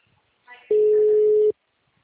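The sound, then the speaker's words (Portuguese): A telephone busy signal: one steady, loud, pure beep lasting under a second, with a brief voice just before it and silence after. “Sei que eu não consegui. O número está ocupado.”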